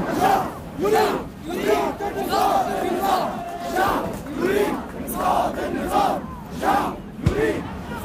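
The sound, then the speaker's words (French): A large crowd in Tahrir Square chants slogans against the ruler during the Egyptian revolution. Many voices rise and fall together in a loud, rhythmic chant, repeating short phrases in steady pulses. “Ils sont aussi les premiers à lancer des chants hostiles à Moubarak, que la foule reprend ensuite en cœur.”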